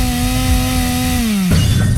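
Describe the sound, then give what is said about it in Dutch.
A saw cutting something in half makes a steady buzzing whine that sinks slightly in pitch, then breaks into a rougher, noisier burst near the end. “En dat betekent dat we gaan zagen. Ja, we gaan zagen. Want die week, die moet doormidden. Zagen.”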